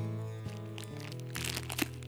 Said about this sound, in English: and she's eating some popcorn, and she breaks out her Skittles, and she opens them up, and man, I love Skittles. Oh, taste the rainbow of Skittles. Okay, if I can open them up.